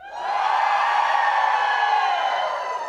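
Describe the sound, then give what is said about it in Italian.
An audience shouting for joy together on a count of three, a loud sustained roar of many voices that holds steady, then tapers slightly at the end. “Quindi al mio tre, noi gridiamo di gioia a Lui, impegnati in tutto e per tutto in quello che puoi fare. Uno, due, tre.”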